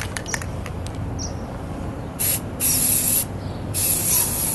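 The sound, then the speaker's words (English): Aerosol spray paint hisses onto steel to protect it from rust: two sustained bursts of bright, steady hiss with a short pause between them, over a low background rumble. “So I'm going to paint my steel just to make sure that I'm inhibiting rust as much as I can.”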